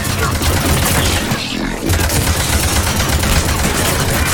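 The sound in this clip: Loud, dense gunfire fills a video game battle, rolling on without a break as volleys overlap throughout.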